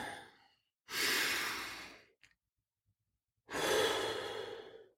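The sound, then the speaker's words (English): A person takes deep, slow breaths during a guided breathing exercise. After the tail of one breath comes a pause, then two long, breathy rushes of air separated by a silence. The breaths are soft, with no talk. “I like to say this, can I breathe? Take a deep breath. Do it right now, by the way, with me. Go.”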